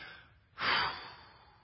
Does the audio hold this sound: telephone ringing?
no